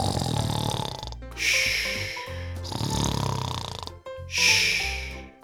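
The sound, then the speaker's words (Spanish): Loud snoring from a small dinosaur: a few long, rasping snores with wheezy, throaty breaths, strongly harmonic and evenly spaced, each swelling and then cut off by a brief pause. “Cuando terminó, Stegui se había dormido y roncaba bien fuerte.”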